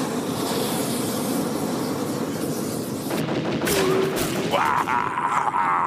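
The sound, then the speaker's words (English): A fire-hurling war machine discharges a deadly burst at an armored, hydrogen-filled zeppelin, a sudden roaring blast breaking through a continuous loud rumble, followed by rough crackling and a rising whine. “The bears discharge another deadly burst from the fire hurler.”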